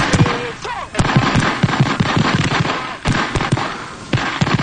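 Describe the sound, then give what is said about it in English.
Many gunshots are fired at point-blank range. Sharp, loud cracks come in rapid, irregular clusters through the whole clip, with short gaps between bursts. “That many shots. Yeah. And then he falls about a second after that. At point blank range.”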